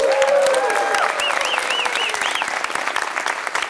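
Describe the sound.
Applause from a live audience at a political game show held at Kulturhuset in Falun: thick, sustained clapping that is loud from the start and tapers slightly toward the end.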